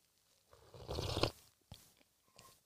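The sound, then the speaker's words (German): A sip of hot coffee is taken in one noisy, rushing slurp lasting about half a second. A few faint clicks and small mouth sounds follow in otherwise quiet surroundings. “Ich trinke jetzt noch mal kurz einen Schluck Kaffee.”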